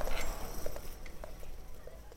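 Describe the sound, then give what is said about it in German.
Busy street noise of old London: a dense, steady wash of bustle with scattered knocks and taps, and no clear voices standing out. “Komm, geh ein Stück mit mir. Diese Straße ist zu laut zum Nachdenken.”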